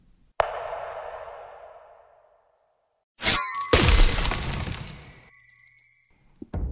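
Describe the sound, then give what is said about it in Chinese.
A mirror shatters during a sword fight. First comes a sharp ringing strike that fades over about two seconds, then loud crashing bursts of breaking glass with a bright, glittering tail. “镜面被打碎”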